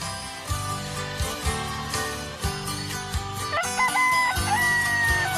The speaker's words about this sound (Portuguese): É o galo cantando, o dia clareando, moçada.